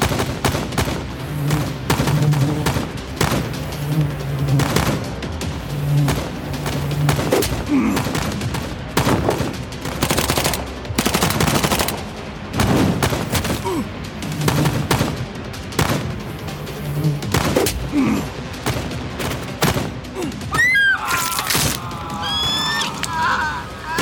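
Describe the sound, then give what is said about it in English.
Gunfire erupts in a spy-style action shootout, one side facing twenty opponents: many sharp, loud bursts and rapid volleys packed densely together for the whole stretch, with few gaps between shots. “Shoot her now!”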